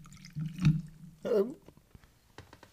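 Whiskey poured from a bottle gives two brief, faint wet glugs, followed by light drips.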